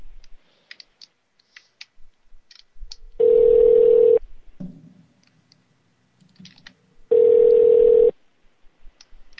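Telephone tones sound on a call to an automated phone menu: two steady, loud, one-second beeps at the same pitch, separated by a few seconds of near silence with scattered soft clicks.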